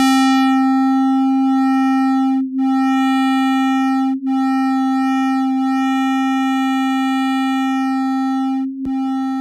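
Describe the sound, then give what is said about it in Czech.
Sonified solar oscillations form a steady, loud electronic tone with a stack of even harmonics, held unchanged with three brief dropouts. “I oscilace slunce jsem převedl na zvuk, ale pozor, v tomto případě nebylo potřeba škálovat, protože slunce pulzuje na frekvencích, které jsou pro nás pohodlně slyšitelné. Takže nebýt vákua vesmírného prostoru, znělo by slunce asi nějak takto.”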